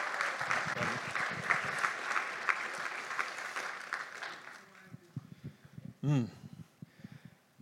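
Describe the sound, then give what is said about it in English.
A church audience claps to welcome a pastor. The applause is dense and fairly quiet at first, then thins out and dies away into a few scattered claps before a voice begins to speak. “So let's give him a hand and welcome Pastor Charles.”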